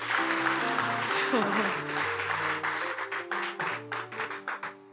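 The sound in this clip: Applause from a church audience during a worship service: steady, dense clapping that stays loud throughout, over sustained keyboard chords and a bass line.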